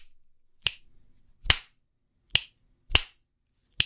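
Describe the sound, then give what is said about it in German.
Finger snapping: five crisp, sharp snaps at uneven intervals, each short and bright, heard alone with no talk. “Jetzt schnips ich mal. Boah, es ist leise.”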